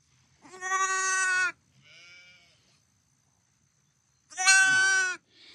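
A lamb that was attacked and lost an eye bleats in two long, loud, quavering cries. A shorter, softer call follows the first, and silence comes before the second.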